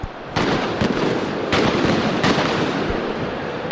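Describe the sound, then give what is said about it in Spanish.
Loud firecrackers and fireworks go off around a football stadium before a final, several sharp bangs standing out over a dense, continuous crackle that runs through the whole clip. “Algunas bombas de estruendo que suenan en las inmediaciones del estadio, fuegos de artificio, bengalas también.”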